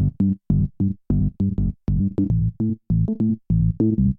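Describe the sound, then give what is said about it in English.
An 80s-style synth bass plays many short, punchy staccato notes in a bouncing, syncopated rhythm. The tone is loud, low and buzzy with bright overtones, and it plays alone with no other instruments. “I've got a synth bass, and it is like an 80s style synth bass that sounds like this.”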